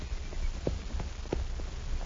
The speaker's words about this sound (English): From that ledge, I saw the sheriff's posse riding back this way. Quiet now. Here he comes.